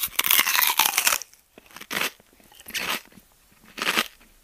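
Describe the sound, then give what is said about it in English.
Crunchy chewing of a big mouthful of sweets, heard as four bursts of crackling munching, the first long and loud, separated by quieter pauses. “You take some sweets out of your pocket. You gobble up a huge mouthful and chew using all of your facial muscles.”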